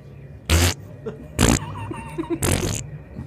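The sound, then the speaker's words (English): A voice imitating a fart into a bowl of water, with three loud, wet, blown bursts separated by short pauses and faint sounds between them. “for me it's like a fart into a bowl.”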